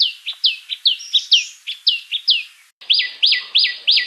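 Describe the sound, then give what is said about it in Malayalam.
Common tailorbird calls: many sharp, high-pitched chirps repeat in a quick, steady rhythm, each loud and clear, with a brief pause before the series resumes. “തുന്നാരൻ്റെ ഒന്നോ രണ്ടോ ശബ്ദങ്ങൾ അഥവാ കോളുകൾ നമുക്കൊന്ന് ശ്രദ്ധിക്കാം.”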